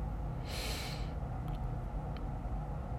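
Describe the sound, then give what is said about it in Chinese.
An inhalation through the nose during a breathing exercise: one short, airy rush of breath lasting about half a second over a steady low hum, followed by a few faint clicks. “现在你跟着我一起把专注力放在呼吸上，然后使用鼻子吸气，肚子记得鼓起来，感受吸气的时候气流进你身体的感觉。”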